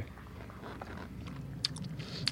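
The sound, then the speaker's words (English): Someone bites into a lemon and chews quietly, soft wet mouth sounds followed by two sharper, crisper bites near the end, all faint against a low background. “Try your lemon first. I'm going to try a lemon, okay.”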